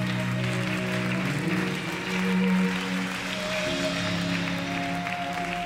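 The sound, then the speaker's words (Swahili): Applause for Jesus during a church service: continuous clapping at a steady level for several seconds, with sustained musical tones running underneath. “Ongeza makofi tena kwa Yesu.”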